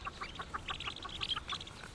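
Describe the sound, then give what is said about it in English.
A mother bird calls her day-old chicks from the nest with many short, repeated chirping calls, bright and fairly quiet, coming in quick irregular bursts over a low background rumble. “Their mother's not far away. And her calls are the only thing that could entice them to abandon their cozy nest.”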